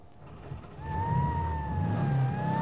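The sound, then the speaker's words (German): A car engine with a rattling bumper runs and pulls away: a low rumble that swells louder partway through, joined by a steady high whine. “McCords Wagen lief noch. Ich sprang rein und verduftete mit klappernder Stoßstange.”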